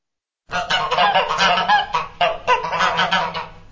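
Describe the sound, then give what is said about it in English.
Goose honking in a rapid, continuous series of many harsh, nasal honks that start abruptly and stay loud throughout. “Is that a goose?”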